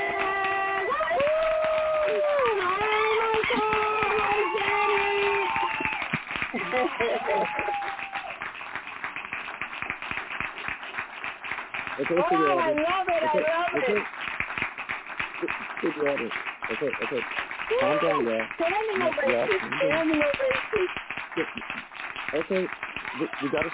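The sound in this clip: An audience applauds three legendary female performers as they are welcomed onstage, with sustained clapping running under voices that speak and call out over it.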